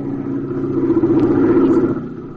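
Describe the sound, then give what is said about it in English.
Airplane motors droning from a plane with stuck landing gear, a steady low rumble that swells through the middle and eases near the end, heard alone without voices. “Airplane motors.”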